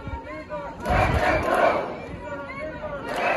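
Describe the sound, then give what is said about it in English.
Hundreds of protesters chant in unison around a Home Office immigration enforcement van in Glasgow. A loud roar of voices rises suddenly, then continues in repeated shouted bursts. “"These are our neighbors, let them go." That was a cry of hundreds of protesters who gathered around the van, preventing it from leaving, as you heard in that clip from local news site Glasgow Live.”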